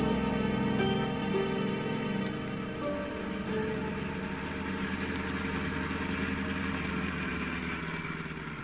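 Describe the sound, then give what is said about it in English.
A car engine idles as a radio drama sound effect, a steady low rumble with an even hum that holds constant throughout. “Why are you stopping the car?”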